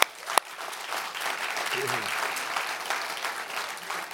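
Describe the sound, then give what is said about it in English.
Audience applause during a church service, steady and dense clapping that carries evenly through to the end after a brief sharp click at the start. “Let's give a hand to them, okay, will you?”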